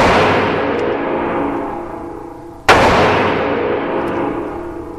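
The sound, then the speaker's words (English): A single sharp, very loud gunshot from a powerful long-barreled handgun cracks out midway and rings into a long fading tail, while the decaying echo of an earlier shot trails off at the start. “So you could definitely tell it's very, very loud, very, very powerful handgun, and I can already feel it in my hand.”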